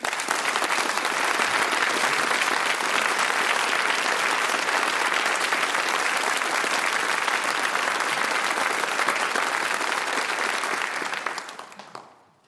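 Sustained audience applause welcoming the 2019 BBC lecturer, Jonathan Sumption, before the lecture In Praise of Politics: thick, even clapping from a large crowd that holds level for about eleven seconds, then dies away quickly.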